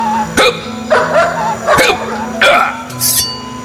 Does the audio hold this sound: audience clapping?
no